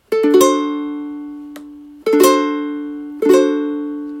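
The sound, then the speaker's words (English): A D7 barred chord strummed three times on guitar. Each strum rings out bright and full and slowly fades before the next, and the first strum is rolled across the strings. “And the D7 barred chord sounds like this.”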